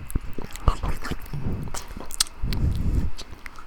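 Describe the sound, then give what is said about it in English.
Close-up chewing on a piece of corn produces wet, squishy bites and crunchy mastication in several uneven bursts, with moist mouth sounds throughout. “We like to make noises. Here's me eating a piece of corn.”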